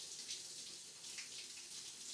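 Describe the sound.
Water spraying from a shower head at reduced flow gives a steady, faint, even hiss throughout, with no talk.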